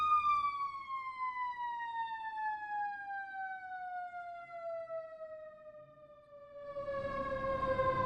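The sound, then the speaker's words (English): A fire truck siren passing by, a single steady wail whose pitch glides smoothly downward for the whole clip. A broader rumble swells up under it near the end. “That was a fire truck going by.”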